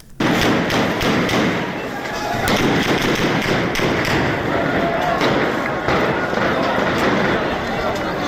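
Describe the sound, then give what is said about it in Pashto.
Gunshots ring out during a clash between protesters and police in a bazaar in Shangla district: several sharp cracks and thuds stand out over a dense, constant din. “دغه د ضلع شنګلې پالپورۍ بازار کې د مظاهره چانو او پولیس ترمنځ انښتو کې د ډزو آوازونه دي.”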